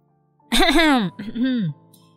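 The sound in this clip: A woman clears her throat with a voiced two-part ahem, a brief wavering tone followed by a shorter, lower one, alone against silence.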